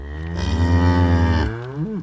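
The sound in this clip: A cow mooing: one long, low, steady call that breaks off abruptly, followed by a short upturned grunt, loud and alone.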